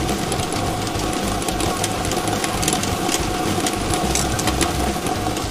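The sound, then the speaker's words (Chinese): Lottery ball drawing machine running, a continuous dense whirring roar with quick rattling clatter of tumbling balls, loud and even throughout with no voices. “摇奖机正式启动了，祝大家好运，共同来关注开奖号码的产生。”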